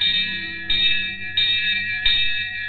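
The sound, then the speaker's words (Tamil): A temple bell rings in a steady series of bright metallic strikes, each one clanging and then ringing on until the next. “பாத்தியா, எங்கேயோ கோவில் மணி அடிக்குது.”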